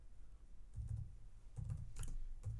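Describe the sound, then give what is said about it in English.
Soft, irregular keystrokes on a computer keyboard while someone searches online, a few scattered taps and short clusters separated by brief gaps. “You can hear the tapping away now, can't you? Well, I'm actually googling something which already exists that I want to just mention”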